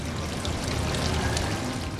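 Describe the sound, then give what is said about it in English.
Water from a lake bubbles up from an ornate indoor fountain in a Las Vegas casino hotel, a continuous, even rush of splashing and trickling water at moderate loudness with no voices. “in Las Vegas, water from the lake bubbles up from an ornate fountain inside Caesar's Palace”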